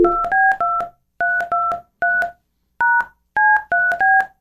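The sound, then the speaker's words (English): Touch-tone keypad beeps sound as a telephone number is dialed, many loud, clean two-tone pips in quick clusters separated by short pauses. “We used to play this clip going dialing at random, but it's not random.”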